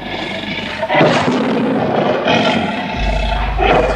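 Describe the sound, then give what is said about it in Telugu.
Tigers roar in loud, rough, broad bursts, with a few heavy roars rising and fading over a constant raw rumble; no voices. “అదిగో అటు పదండి, పులులు చూపిస్తాను. అదిగో మావయ్యా, అక్కడ పులులున్నాయి, వెడదాం.”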